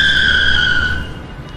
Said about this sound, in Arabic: تكاد السيارة المسرعة أن تصدم الطفلة الصغيرة.